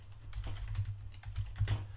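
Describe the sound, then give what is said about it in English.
Quiet typing on a computer keyboard, with many quick, irregular key clicks heard alone over a faint low hum. “I'll type it right here so you can see it.”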